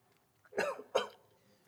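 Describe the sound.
Two quick, fairly faint coughs in close succession from a person eating spicy buffalo-flavored chips, with silence before and after.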